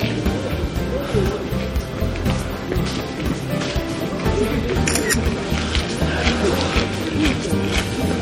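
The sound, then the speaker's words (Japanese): Camera shutter clicks as photos are taken at a neighborhood shrine, a few quick mechanical clicks over dense, steady outdoor noise. “写真だけ撮っとこう。”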